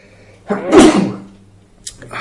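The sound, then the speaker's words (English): A single loud sneeze bursts out mid-lecture, a broad rush lasting about half a second before trailing off, followed by a few quieter short noises. “sorry, one second. Sneeze.”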